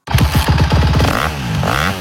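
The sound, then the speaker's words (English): A Honda motocross bike engine revs in loud, buzzing bursts: a quick series of short stuttering revs, then a longer sweep that dips and climbs again. “Are you ready to ride? Then get to Big Valley Honda, Northern Nevada's only Honda powerhouse dealer, where the hottest motocross bikes of the season are in stock and ready to go.”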